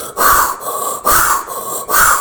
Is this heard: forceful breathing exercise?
yes